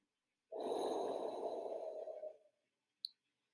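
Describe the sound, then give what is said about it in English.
Slow breath exhaled through parted lips with a windy quality: one soft, steady, airy rush that tapers off over about two seconds, followed after a short pause by a single faint click. “then exhale through parted lips for about 6 to 8 counts. As you breathe out, infuse the breath with the sound of a windy sound.”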